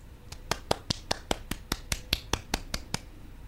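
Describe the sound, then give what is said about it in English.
A quiet golf clap, as if for a birdie on the green. Soft, crisp claps come at an even, unhurried pace throughout, each one short and light. “I can't do a golf clap loud enough for this. Are you doing a golf clap right now?”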